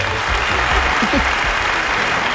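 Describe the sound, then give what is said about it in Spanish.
Applause from a group of people, a dense, steady patter of clapping that stays loud throughout, with a brief voice faintly audible beneath it. “Otra vez, dos aplausos, muy bien.”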